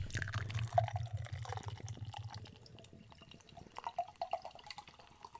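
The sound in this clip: Opening a can of hazy IPA beer and pouring it gives a fizzing, splashing run of liquid. A low steady pour comes first, then lighter crackling bubbles as the foam settles.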